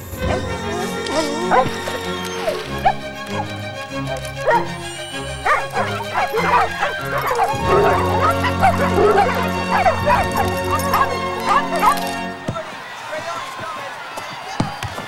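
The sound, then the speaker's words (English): Dogs bark and yip excitedly, with many overlapping barks and a few whimpers, over busy music that cuts off near the end. “Inside the room, Emma blows the dog whistle. As before, the dogs of Fernfield all look up, drop whatever they're doing, and set off at a run.”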